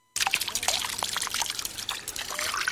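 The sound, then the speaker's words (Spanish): Water trickling from a fountain, a steady splashing flow that starts abruptly and runs on evenly. “Chafariz. A water fountain.”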